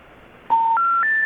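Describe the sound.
Telephone error tone for a call that cannot be completed: three short, steady electronic beeps, each higher than the last, played alone over a faint line hiss.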